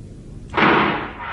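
A single gunshot cracks out, one sharp loud blast that decays over about half a second against a faint background, with no talk.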